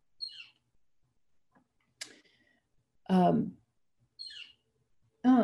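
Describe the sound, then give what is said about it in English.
Short, high bird chirps from outside: a few brief tweets spaced well apart, with a person's voice heard briefly between them. “I have a little bird talking to me outside, excuse me.”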